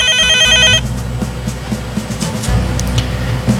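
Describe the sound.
A telephone rings for an incoming call, a short bright electronic ring at the very start. It then gives way to a steady low rumble.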